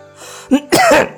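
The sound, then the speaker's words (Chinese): An elderly court official coughs while patting his chest after swallowing scalding porridge, giving a short throaty cough and then a longer, rasping, strained cough, loud and alone. “太师拍着胸口咳嗽，因为在场所有人都在看他。”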